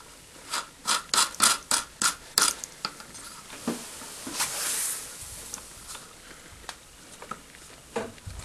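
Small metallic clicks and scraping as a little nut is screwed onto a shell plate holder assembly. A rapid, regular run of sharp ticks gives way to sparser, irregular clicks and a brief scratchy rasp.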